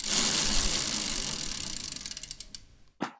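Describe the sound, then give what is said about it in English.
A prize wheel spins and ratchets, a dense run of clicks slowing into distinct, spaced ticks before a final louder knock as it stops. “Let's spin that wheel. Spin that wheel.”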